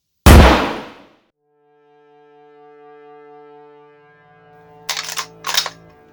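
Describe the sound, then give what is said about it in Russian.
A single rifle shot rings out as a sharp, loud blast whose noise decays over about a second into a faint, low lingering tone, followed later by two short, rough bursts of noise. “Он опять досылает патрон в ствол и делает последний выстрел в Андрея Матвеевича.”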